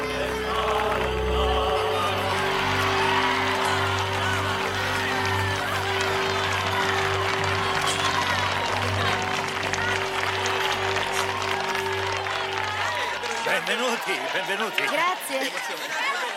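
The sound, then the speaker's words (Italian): A crowd greets a team stepping ashore from a boat in Wales with long applause and folk singing. Sustained sung voices and clapping run throughout, the singing drops away near the end, and voices and crowd noise continue. “tocca finalmente terra, scatta un lungo applauso e un canto popolare.”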